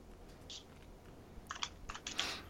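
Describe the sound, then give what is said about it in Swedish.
Faint typing on a computer keyboard into Google Docs: a single keystroke, then a quick run of light clicks toward the end. “Jag måste gå in på min egen Google Docs. Vad jag har för projekt? Ja, jag skriver så...”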